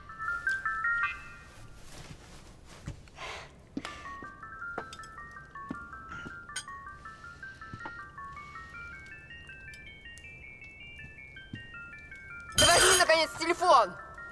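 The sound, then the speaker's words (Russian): A mobile phone ringtone plays a repeating, stepped electronic melody for about twelve seconds over scattered clinks and background sound. A louder burst of noise breaks in near the end. “Ей звонят.”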